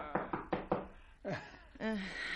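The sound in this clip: Knocking on a door as a radio drama sound effect: four crisp, evenly spaced knocks, followed by voices speaking.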